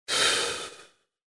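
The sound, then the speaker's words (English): A single slow, forceful exhale during a breathing exercise, with air pushed out in a steady hiss like a snake. It starts strong and fades out over about a second, with no voices. “Now, when you exhale, like a snake,”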